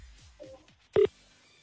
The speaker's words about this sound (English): let's just hope that we are going to call somebody whose phone is on